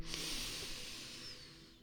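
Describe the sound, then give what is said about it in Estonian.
A single deep breath drawn in during a guided breathing exercise: a soft, airy hiss that holds for about two seconds and slowly fades, with no talking. “Leia see õige koht ja siis hinga minuga koos sisse.”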